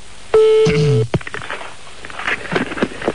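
A telephone gives a steady tone that breaks off, followed by a rapid run of dry clicks as a number is dialed. Scattered rustling and shuffling sounds follow.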